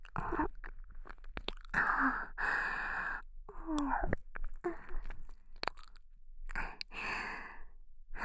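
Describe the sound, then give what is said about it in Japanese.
Wet chewing and biting on a soft ear, in many irregular crunchy bursts mixed with sighs and breaths, fairly faint with no speech. “彼氏さんの耳も久しぶりでさ、柔らかくて美味しい。”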